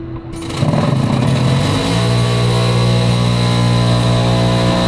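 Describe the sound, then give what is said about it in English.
A small spin dryer whirls wet underwear, giving off a steady, loud motor whine with a layered electric hum that holds evenly throughout once the drum is up to speed. “they've got this little device here. I've got my wet underwear. I'll put in there, and it spins it up.”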